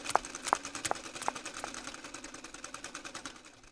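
A sewing machine runs during a sewing lesson, stitching in a fast, steady mechanical clatter with a few sharper clicks near the start, and no voices.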